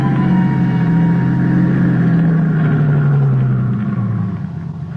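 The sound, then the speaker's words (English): A car engine rumbles as the vehicle drives up a mountain road, a steady, loud low drone whose pitch drifts only slightly before the sound eases off a little at the end. “There was only one way to check it out. Drive up to Primrose Camp.”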